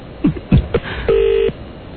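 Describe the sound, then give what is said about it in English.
Telephone dialing a number in London: a few short electronic blips, then a steady, pulsing ringing tone lasting under half a second before fading, all fairly quiet with no talk. “I got a number ringing.”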